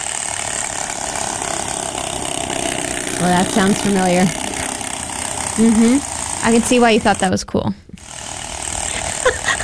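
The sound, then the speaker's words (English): A playing card fixed with clips to a bicycle wheel and slapping the spokes as the wheel turns, making a rapid, motor-like ratcheting clatter that runs steadily while people talk and react over it. “That is the sound of a playing card. Mm-hmm. Attached to the wheel. Attached to the bicycle. Yeah. You're going around. The little spokes. Mm-hmm. With the clips that we took from Mom.”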